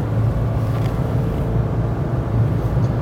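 A car outside rumbling with a steady, loud, low engine drone that holds evenly throughout.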